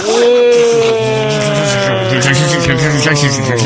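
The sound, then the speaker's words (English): A meat grinder starting up, its motor giving a loud, droning whine rich in harmonics that sags slightly in pitch, with a rough grinding rasp layered on top. “fire up the meat grinder”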